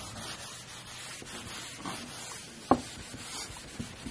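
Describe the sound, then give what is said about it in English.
Chalk writing on a wet blackboard makes a faint, continuous rubbing scrape, with a sharp tap near the end. “I might have made an error by writing while the blackboard was still wet.”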